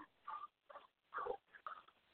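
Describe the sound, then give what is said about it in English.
Dogs bark at home, freaking out: a few short, faint, muffled barks in quick succession with brief gaps between them. “my dogs are freaking out”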